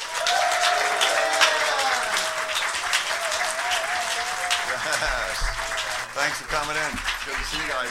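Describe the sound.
Audience applause welcoming the band Perry on stage: loud, sustained clapping from a crowd, with a voice speaking over it and some low thumps near the end.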